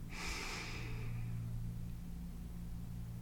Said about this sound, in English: Take a deep inhale.